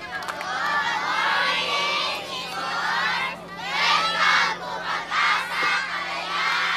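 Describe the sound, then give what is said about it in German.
Around 30 to 35 schoolchildren lined up on a quay shout and cheer to greet an arriving cruise ship, a continuous loud chorus of high voices with surging peaks over a steady low hum. “Am Quai aufgereiht sind äh, etwa 30, 35 Schulkinder in Reihe und Glied. Die sind da, um uns zu begrüßen.”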